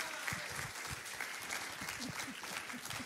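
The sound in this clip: A church audience applauds as a guest preacher is welcomed to speak, with dense, steady clapping from many hands throughout.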